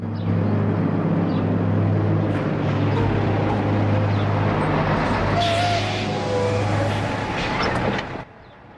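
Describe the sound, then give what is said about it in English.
A truck engine rumbles as it drives along a leafy street, a steady low drone with road noise holding for about eight seconds before dropping away abruptly as the vehicle stops. “A truck with a blue cab drives along a leafy street and stops.”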